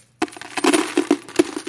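Coins of silver, gold, bronze and copper dropped into a bucket, a modest sum of about a hundred dollars: a quick series of sharp metallic clinks and jingles that follow one another at uneven intervals after a short silence.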